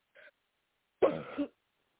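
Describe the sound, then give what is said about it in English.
A person coughs during a deliverance prayer session: a faint, very short sound comes first, then one harsh, throaty cough or throat-clearing burst, with no talk. “Cough him out now. Deep breath and cough from your gut.”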